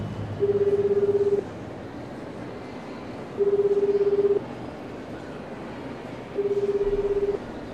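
Telephone call to a judge ringing out after dialing: three evenly spaced, steady low tones, each lasting about a second, separated by pauses over faint background noise.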